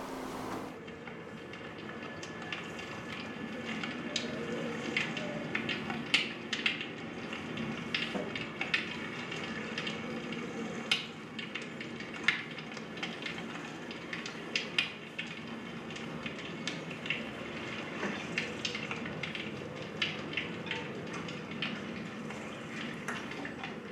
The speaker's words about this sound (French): on est sur le port, et on a mis un micro dans l'eau et un micro dehors.